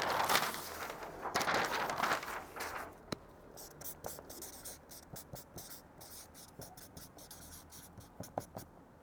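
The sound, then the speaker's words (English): Handwriting while words are written down: faint, scratchy strokes and short taps in an irregular rhythm, quiet and close. “Because leadership is nothing but, I'm going to write this down.”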